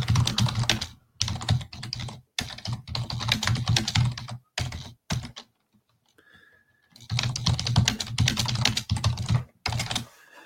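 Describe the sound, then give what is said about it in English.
Fingers type on a computer keyboard in quick, clattering bursts of keystrokes, broken by short gaps and one longer quiet pause before the typing resumes. “As I type.”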